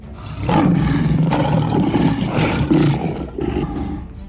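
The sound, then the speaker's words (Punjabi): Lions roaring in loud, rough, sustained bursts, a few deep roars running into one another with short dips between them and no voices. “सो उस रात वो शेर दे रूप विच तब्दील हो गए। वो दो भयानक शेर शाही सोन वाले कमरे विच दाखिल हो गए।”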